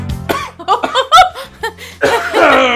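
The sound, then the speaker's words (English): A person coughs hard in a burst of several rough, irregular hacks after a piece of ghost pepper chip catches in their throat, ending in a longer, raspy, breathy cough. “That ghost pepper chip. Had a bit of ghost pepper chip caught in my throat.”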